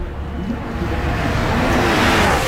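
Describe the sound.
Formula 1 race cars roar past during an overtaking battle at the Miami Grand Prix, a loud, sustained engine rush that swells slightly over a couple of seconds.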